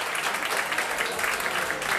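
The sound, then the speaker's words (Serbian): Steady audience applause for a pianist introduced on stage, a moderately loud and even wash of many hands clapping that does not let up. “Ivan Aleksijević na klaviru, molim vas jedan aplauz i za gospodina Ivana.”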